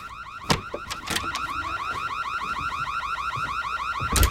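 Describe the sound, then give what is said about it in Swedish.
A house alarm goes off in a pitch-black house, its rapid warbling electronic tone repeating steadily and loudly, broken by a few sharp knocks. “And the alarm is going off for the house.”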